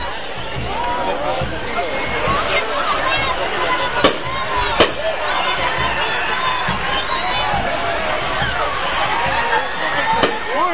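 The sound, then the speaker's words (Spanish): Fireballs thrown and landing among the crowd at the Nejapa fireball festival: a dense, constant roar of crowd voices, broken by a couple of sharp cracking impacts and scattered thumps. “Vamos a movilizarnos un poco porque ya hay bolas en el piso y algunas que están cayendo aquí entre la multitud. Tenés cuidado que hay bolas de fuego de ambos lados. Ya vinieron para acá también.”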